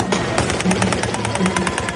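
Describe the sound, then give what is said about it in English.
Fireworks going off in a celebrating street crowd in Homs, Syria: a loud, dense volley of rapid, sharp pops and crackles running continuously over a thick, noisy background. “What you're hearing right now are not bullets, actually. They're just more like fireworks.”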